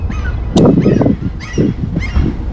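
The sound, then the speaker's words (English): Honking, squawking bird calls outdoors beside a blossoming tree, coming in a few loud bursts with short gaps, no voices. “You can hear the birds, maybe. I think this microphone should pick up those birds.”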